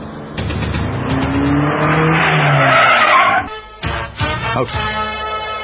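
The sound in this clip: Tires squeal in a long, loud skid as a car brakes hard, a sustained shrill screech of about three seconds that cuts off abruptly and is followed by short bursts of rougher noise.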